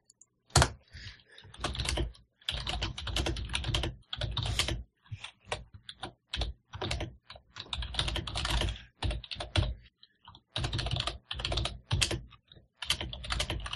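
Typing on a computer keyboard: many quick keystrokes come in irregular bursts separated by short pauses, fairly quiet, with no talk over them.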